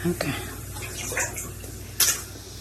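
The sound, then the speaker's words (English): Floodwater sloshing in a flooded basement as a resident in rain boots wades through murky brown water, with soft splashes and one louder splash near the end, voices talking over it. “She filmed this video of the flood that day. Oh, Jesus. It shows her wading through murky brown water in rain boots as furniture and buckets float by.”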